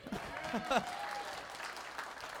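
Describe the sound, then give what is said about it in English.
A church audience at a night of worship applauds and cheers for an assistant. The clapping is dense and sustained, with a voice briefly rising over it. “All right, come on, give it up for my assistant.”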